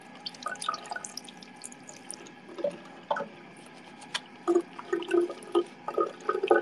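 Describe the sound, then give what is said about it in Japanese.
Tap water runs at a hotel sink while hands are washed. Irregular splashes and drips come in patchy, moderately faint bursts and grow busier and louder toward the end. “水道の音で当ててみて。”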